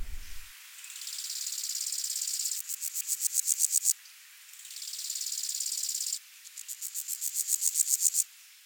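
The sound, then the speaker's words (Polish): Chirping of brown, meadow and common grasshoppers, a high, dry buzzing in two phrases. Each phrase is a steady rasp that breaks into a run of rapid pulses growing louder before stopping. “mamy te popularne koniki, ale koników jest bardzo dużo. W Polsce kilkanaście gatunków może występować. Popularne brunatne, łąkowe, pospolite. Proszę bardzo, to wszystkie te chyba nam znane dźwięki.”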